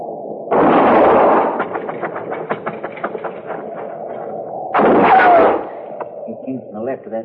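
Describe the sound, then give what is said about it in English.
Two loud gunshots are fired toward a thicket, each a harsh, broad blast with a short rumbling tail. The shots are several seconds apart, and talk and quieter sounds fill the gap between them. “I'm gonna fire and roll away, maybe draw a shot.”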